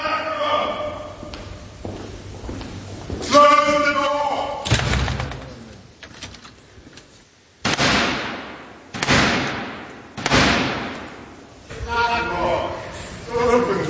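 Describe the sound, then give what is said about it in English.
Black Rod knocks on the slammed door of Britain's Parliament in the 350-year-old ceremony: three heavy, evenly spaced booming thuds, each ringing out briefly, with people talking before and after. “Now, that was the sound of the 350-year-old tradition of the King's Messenger, the Black Rod, knocking to gain entry after having Parliament's door slammed in his face.”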